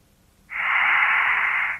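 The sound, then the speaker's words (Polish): Heavy panting breath heard over a telephone line: one hissy, thin-sounding exhale that swells in quickly, holds steady for just over a second and cuts off, alone without talk. “A czemu pan tak dyszy?”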